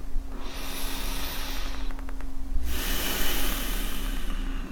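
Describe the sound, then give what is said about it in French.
Slow, deep breathing during a mindfulness meditation: two long, airy breaths of soft, even hiss separated by a short pause, with no talking. “des grandes respirations.”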